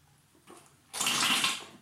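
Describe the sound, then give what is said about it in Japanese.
Water splashing in a bathroom while someone washes their body: a faint trickle at first, then a sudden swell into a louder, steady hiss of running water for the second half. “まだね、体を洗う音から撮っていきます。”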